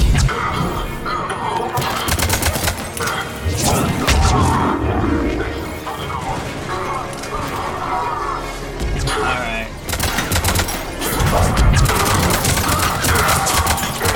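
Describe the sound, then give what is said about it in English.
Gunfire and explosions from a shooter video game come as dense bursts of shots and crashes, loud and almost continuous. Voices are heard at times through the noise. “Yeah, like, we're just constantly walking forward, shooting stuff, and causing mayhem.”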